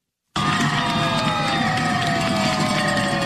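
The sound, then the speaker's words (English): Teachers in Newton, Massachusetts cheer and celebrate after a deal ends their two-week strike. A brief silence gives way to a sudden, loud, sustained burst of cheering and shouting from many voices. “That's the sound of teachers celebrating in Newton, Massachusetts, after a deal was reached to end their just over two-week strike.”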